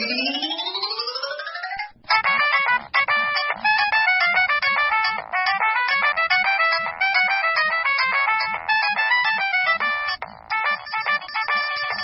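A phone ringtone sounds for an incoming call at night: bright electronic tones sweep upward for about two seconds, then a loud, busy melodic pattern repeats steadily with no talking.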